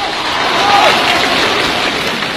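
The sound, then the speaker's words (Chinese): An audience claps at a Lunar New Year crosstalk comedy performance. The applause is loud and sustained, a steady even roar of clapping that holds throughout. “大伙鼓掌了， 你没听那个掌声里边都带着嫌弃吗？”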